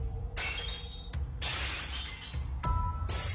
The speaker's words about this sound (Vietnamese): Mã tiên sinh hất đánh choang một cái, cái bàn đổ sập sang một bên, tiếng đổ vỡ vang lên